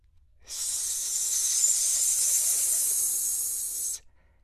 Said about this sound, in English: It was guarded by a serpent, who gave them his coldest stare and hissed,